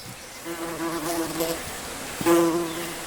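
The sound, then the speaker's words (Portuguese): Flies buzzing in a steady, faint drone that swells slightly a few times and grows stronger toward the end. “As moscas.”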